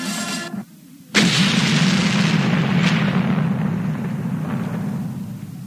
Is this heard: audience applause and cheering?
no